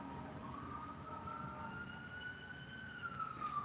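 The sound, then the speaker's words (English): An emergency vehicle's siren passes on a residential street. A faint, wailing tone holds steady over a low background rumble, then bends downward near the end. “Excuse me for a second. We got a emergency vehicle going on my street.”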